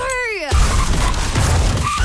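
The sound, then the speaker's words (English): Car crash with skidding tyres: a short tonal tyre screech that bends downward in pitch, cut off by a loud crash and a sustained burst of crunching, rumbling noise. “Every single piece of this jingle was made from the sound of a bingle.”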